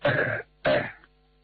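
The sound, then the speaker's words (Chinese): A man gives a light cough, two short, breathy bursts like throat clearing, each soft and separated by a brief pause, with no talk. “王永江轻轻地咳嗽了一声”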